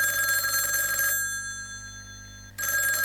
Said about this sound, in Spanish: ¿Ya lo adivinaste? El teléfono.